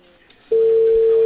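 A telephone ringback tone on an unanswered call: after a moment of near quiet, a loud, steady, mid-pitched tone starts and holds unbroken to the end.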